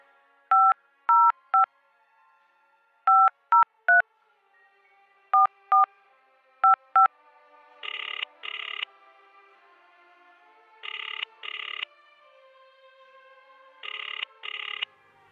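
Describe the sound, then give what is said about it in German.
Telephone keypad tones dial a number in quick bursts of two or three beeps, ten in all, then three paired rings of the line follow at steady intervals, with no voices. “Ja, wollen wir mal den Malik anrufen.”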